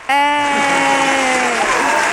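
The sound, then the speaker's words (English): A live studio audience applauds and cheers, starting abruptly with a loud sustained whoop of voices over clapping that holds steady and then fades slightly. “Wait, let's get our live studio audience.”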